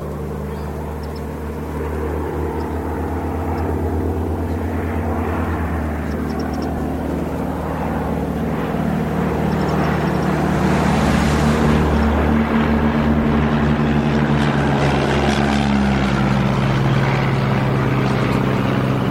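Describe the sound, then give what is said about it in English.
Propeller-engine drone of two Oster aircraft flying side by side right over an industrial estate: a loud, continuous engine roar that swells slightly and holds steady throughout. “What a lovely sound that was. Those two Oster aircraft side by side, right over the industrial estate there.”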